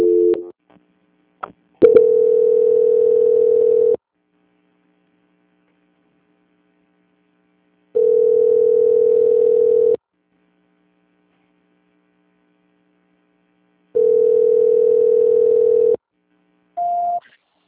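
A telephone tone plays while a call is being transferred: three steady low-pitched tones of about two seconds each, separated by long silences, then a short higher beep near the end.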